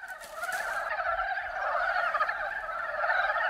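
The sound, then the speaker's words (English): Male frogs calling with inflated vocal sacs at a large spawning site, a dense, continuous chorus of overlapping mid-pitched warbling croaks that stays steady and fairly loud throughout. “The frogs inflate and deflate their vocal sacs, calling out at the top of their lungs.”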